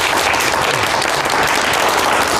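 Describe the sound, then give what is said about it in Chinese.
Applause rings out as steady, dense clapping from a group, loud and even from start to finish, with no pause or swell. “我替你鼓掌。 鼓掌。”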